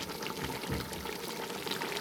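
Water poured into a cooking pot holding passata, enough to cover it: a steady, rushing, bubbling pour that runs evenly for about two seconds with no voices.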